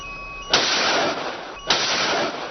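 Naval ship weapons fire during a navy drill against a torpedo attack: two loud blasts about a second apart, each swelling into a sustained roaring rush of noise.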